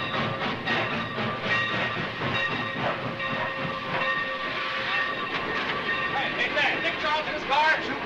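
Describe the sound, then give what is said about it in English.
A train pulling to a stop, with a steady broad hiss and rumble overlaid by thin squealing tones, and voices mixed in underneath. “As the train pulls to a stop, reporters and photographers rush toward the passenger cars.”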